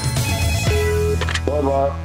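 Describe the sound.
Telephone ringing on a call to a hotel's management, a steady electronic tone sounding in short bursts, with voices also present.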